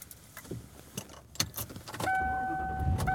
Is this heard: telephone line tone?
no